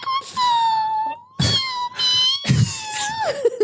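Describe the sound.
Loud, drawn-out wailing meows come from an unhappy cat: several long, moaning calls with wavering pitch follow in quick succession, and the last cry sinks lower.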